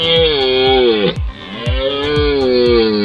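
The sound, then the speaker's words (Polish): A red deer stag roars during the autumn rut, giving two long, deep, harmonic bellows separated by a brief pause. The calls are loud and heard alone. “Tym pierwszym głosem, który słyszymy podczas rykowiska, to jest głos byka organisty, który rozpoczyna rykowisko.”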